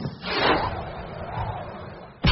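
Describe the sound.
A loud boom from a homemade aid-distributing cannon firing a shepherd's pie bursts in right at the end, after about two seconds of steady rumbling noise.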